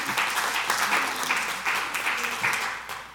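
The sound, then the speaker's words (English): Audience applause for a volunteer coming up to the front, a dense, steady wash of clapping that stays loud for the whole stretch. “Give it up for Miss Brenda as she comes up here.”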